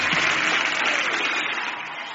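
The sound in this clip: Audience applause welcoming a guest speaker at a church conference in Zaria, Nigeria: brisk, dense clapping that starts full and tapers slightly over a couple of seconds.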